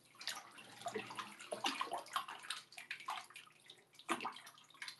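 Bathtub water draining away, a fairly quiet run of gurgling, trickling and splashing that comes in irregular bursts with no voices.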